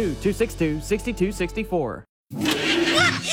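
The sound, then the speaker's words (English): An old clunker car's engine roars in a loud, rough, sustained burst after a short stretch of voice and a brief silence. “What is that? It sounds like a monster! Just my car. It's an old clunker.”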